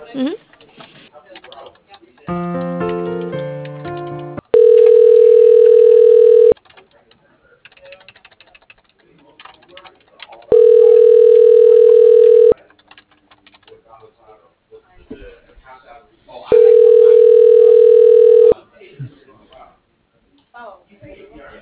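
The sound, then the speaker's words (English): Telephone line tones while a call is transferred to voicemail: a short stepped run of tones, then three long steady ringback tones about six seconds apart, with faint noise between them. “I can transfer you over to his voicemail.”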